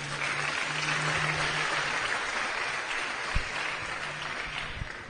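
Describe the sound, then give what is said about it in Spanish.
Audience applause at a live Spanish-language event, a steady, dense patter of clapping at moderate level over a low constant hum, with a couple of sharper knocks near the end. “Otro aplauso.”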